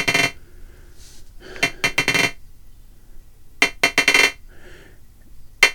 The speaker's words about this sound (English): Because I did have one leftover trigger, and that is the trigger coming out of the envelope generator, which is on loop doing the bouncy ball thing, so now we get this too.